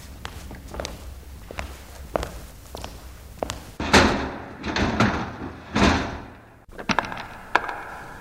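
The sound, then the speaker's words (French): A door closing behind guards on their rounds: a steady series of footsteps, then several heavier thuds and a door shutting, fairly loud, followed by a few more footfalls. “Les gardiens avaient éteint la lumière, la porte s'était refermée derrière eux.”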